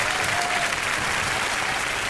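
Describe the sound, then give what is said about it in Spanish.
Steady applause follows a music performance of an Andalusian romance, a dense, continuous wash of clapping from a crowd, loud and unbroken throughout. “Tremendo aplauso, tremendo aplauso.”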